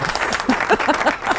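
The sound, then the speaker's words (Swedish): Brief applause for a contest winner, dense clapping with voices mixed in and a steady level throughout. “Ja, vi kan få en applåd. Kan han få? Ja, det får han.”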